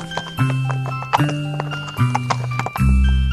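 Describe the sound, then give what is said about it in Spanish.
Horse hooves clip-clop in four loud, evenly spaced bursts as the animal arrives, set against sustained tonal sounds. “Os presento a mi caballo.”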